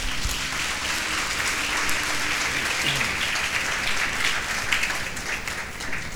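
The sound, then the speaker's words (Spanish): Applause for a woman at a church seminar: dense, steady clapping from a crowd that holds at an even level for the whole stretch. “Un aplauso para ella.”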